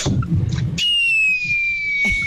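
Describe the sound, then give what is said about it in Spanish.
A whistling firework rocket at a birthday celebration: one loud, sustained whistle that glides slowly downward in pitch for over a second, preceded by a brief noisy burst. “Eso, gracias por los cohetes.”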